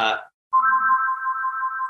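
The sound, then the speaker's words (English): A house phone rings with a steady, sustained electronic tone that holds for over a second after a short vocal sound at the start. “Sorry, the house phone's ringing, but no worries.”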